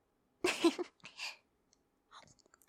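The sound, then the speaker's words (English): Soft, moist mouth sounds of someone chewing a bite of a crab roll: a few short bursts, then quieter little clicks against near silence. “Can I have a bite? I'll let you have one of my little crab rolls.”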